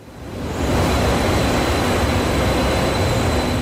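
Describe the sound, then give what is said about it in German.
Regional passenger train on the line between Lübeck and Kiel, running on its tracks: a loud, broad, steady rumbling roar that swells in over the first half second, then holds evenly to the end. “Noch fahren die Nahverkehrszüge zwischen Lübeck und Kiel ohne Probleme.”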